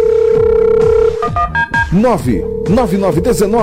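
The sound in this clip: Telephone dialing tones in a radio advert: a steady tone, then a few quick keypad beeps, and the tone returning while a voice talks over it.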